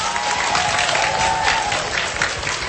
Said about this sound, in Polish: Brawa dla Matki Bożej!